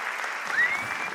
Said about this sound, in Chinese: 感谢大家妈妈的掌声